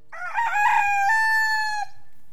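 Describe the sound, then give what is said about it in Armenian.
Rooster crowing once in a long, loud, ringing call that holds steady, then cuts off abruptly near the end. “Ակաղաղը կրկին ծուղրուղու կանչեց”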